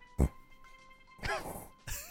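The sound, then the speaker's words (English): A pug dog snorts in a few short, rough nasal bursts: a sharp one first, then a longer, raspier stretch and another near the end, over a low steady background. “He's snorting.”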